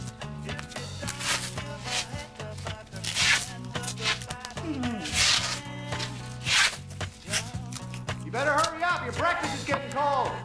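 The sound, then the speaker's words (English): Masking tape is pulled and ripped as it is applied, with several rasping, tearing bursts of varying length over soft background music. “She tapes her breasts down with masking tape.”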